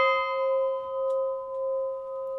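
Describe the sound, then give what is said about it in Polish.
A large 50 kg home bell resonating, its rich, sustained tone and bright overtones ringing on throughout with slow, gentle swells in loudness as the sound gradually fades. “No i słychać, że on długo wybrzmiewa. Jak na warunki kościelne to nie jest jakiś duży dzwon, ale no, na takie na domowe to 50 kg”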